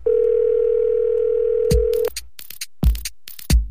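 A telephone dial tone while a number is being dialed: a steady, even hum holds for about two seconds, then breaks off into a few short, sharp clicks and bursts.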